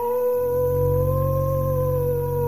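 A wolf howls at night, a single long, steady, tonal cry that holds an even pitch throughout.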